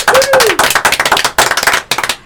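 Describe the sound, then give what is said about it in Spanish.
Audience applause on a television talk show, greeting two devoted fans of the band Zeta Cuatro: many sharp, loud claps in a quick, uneven rhythm, with a brief voice at the very start. “Para ellas también, nuestro aplauso.”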